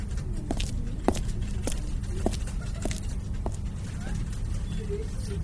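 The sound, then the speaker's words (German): Hurried footsteps walking into an office, a steady series of sharp, evenly spaced steps over a low constant hum, fading toward the end. “Schnellen Schrittes ging ich in mein Büro, direkt zum freien Untersuchungstisch 3”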